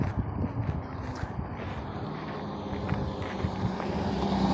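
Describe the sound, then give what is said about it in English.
A school bus passes by while someone walks outdoors, a low, steady engine rumble mixed with wind noise that swells slightly toward the end. “Dang it, the school bus is back.”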